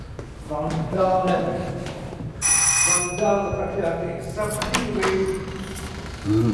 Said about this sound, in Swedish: Jag ska precis ringa på och prata med fastighetsskötaren.